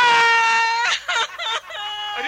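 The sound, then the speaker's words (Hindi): A little girl cries loudly, a sustained high-pitched wail breaking into short choppy sobs before a renewed cry. “नको नको रो बेटे, नहीं रोना बेटा, नहीं ठहरो।”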